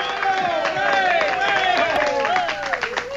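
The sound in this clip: A live audience claps at the 2018 L.L. Bean Maine Audubon Birding Festival in the Discovery Center. Brisk applause mixes with overlapping voices throughout.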